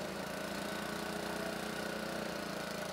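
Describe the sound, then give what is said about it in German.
Heavy machinery of a track renewal train loosening the rail fastenings before replacing sleepers along about 900 metres of track in Bad Pyrmont, Lower Saxony, a loud, steady engine drone with dense rattling vibration that runs unbroken throughout. “Der Schnellumbauzug Mammut soll heute auf gut 900 Metern Schwellen austauschen. Schritt 1, die sogenannten Kleineisen lösen.”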